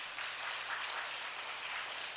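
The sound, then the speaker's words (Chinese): Applause from a church audience during a worship service, a steady dense wash of clapping that holds at an even level for about two seconds with no voices over it. “我们给他们掌声好不好？”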